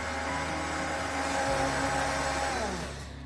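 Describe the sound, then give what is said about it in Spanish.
A blender runs for a few minutes, liquefying a mixture: a loud, steady whirring drone that holds throughout and eases slightly at the very end. “Vamos a licuar unos cuantos minutitos.”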